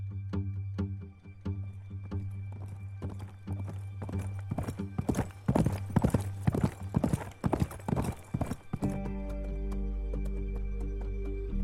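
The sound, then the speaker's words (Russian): A herd of horses pounds by, with many rapid, overlapping hoofbeats clattering in an irregular gallop over a steady low tonal drone. The hoofbeats give way to the sustained drone near the end. “Амели любуется табуном лошадей.”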